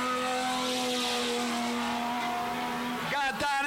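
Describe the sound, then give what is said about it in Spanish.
Turismo Carretera coupé race cars on the track at Alvear: a loud, sustained engine drone with a steady, buzzing harmonic tone, then a brief burst of revving with wavering pitch near the end. “Escuchá cómo suenan las cupecitas en Alvear, escuchá.”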